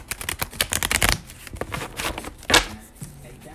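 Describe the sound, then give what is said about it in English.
Oracle cards being shuffled and drawn from a deck: a quick flurry of crisp riffling clicks in the first second, softer rustling after it, then one sharp card snap. “I'm going to pull three more cards here and I'm going to stop pulling cards.”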